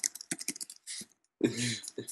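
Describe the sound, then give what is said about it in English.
Someone types a message on a computer keyboard in a quick, uneven run of light clicks, followed by a short pause and a brief voice. “Hold on. I'm gonna type it to you.”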